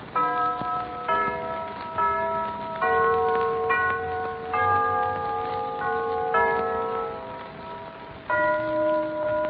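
A clock chime strikes a two-tone bim-bam pattern of ringing, bell-like tones with a long sustain. The strikes repeat at a slow, steady pace, each one overlapping the decay of the last, with no voices.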